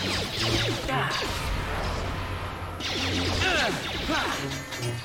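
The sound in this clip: Lightsaber combat in a Star Wars video game: a fast flurry of loud swooshes, crackling clashes and impact hits, packed tightly together with barely any break.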